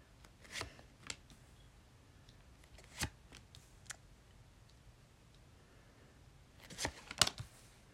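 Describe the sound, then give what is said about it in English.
Tarot cards being laid down one by one, heard as a few soft, faint taps and slaps scattered irregularly, with a cluster of quick ones near the end and no talking. “These are all the cards that came out. Now let me lay them down in front of me.”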